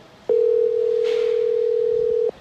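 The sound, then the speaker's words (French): A telephone dial tone sounds while a call is being placed: a single steady, mid-pitched hum starts abruptly, holds evenly for about two seconds, then stops. “on va appeler Sonia Dridi à Washington”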